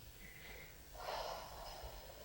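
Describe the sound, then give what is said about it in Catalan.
A single slow, deep breath taken with eyes closed during a guided relaxation exercise, very quiet and breathy, drawn in and let out alone with no talk. “I que aquí, amb els ulls tancats, puguis fer un parell de respiracions profundes”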